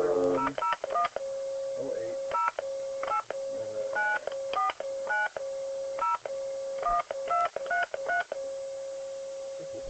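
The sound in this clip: Touch-tone keypad beeps as an international phone number is dialed: many short dual-pitched tones in quick, uneven bursts over a steady tone between them.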